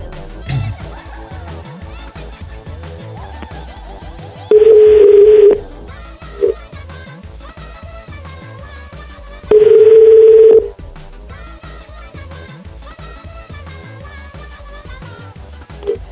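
Telephone line tones while a number is being called: two long, steady, loud beeps about five seconds apart, each lasting roughly a second, over a softer continuous background.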